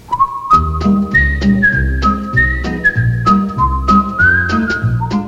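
Whistled melody of The Andy Griffith Show closing theme, a bright, steady tune of sustained notes that step up and down in pitch, carried over a low instrumental backing throughout.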